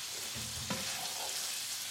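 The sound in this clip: Chicken thighs browning in a hot pan give off a faint, steady sizzle and hiss, with a single light clink of a utensil partway through.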